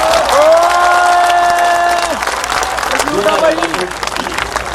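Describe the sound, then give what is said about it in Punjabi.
An audience applauds and cheers after being asked to clap for a hostel warden: a loud voice rings out over the start, then dense, continuous clapping and crowd noise carry on to the end. “ਮੈਂ ਇਹਦੇ ਨਾਂ ਤੇ ਇੱਕ ਤਾੜੀ ਮਾਰ ਦੋ।”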